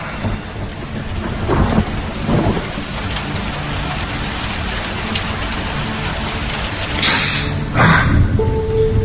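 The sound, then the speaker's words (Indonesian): Heavy pouring rain, a dense and steady roar of water striking surfaces that holds throughout, with a few louder surges and swells rising above the constant downpour. “aku pun terbangun karena hujan deras yang mengguyur saat itu, dan udara pun dingin.”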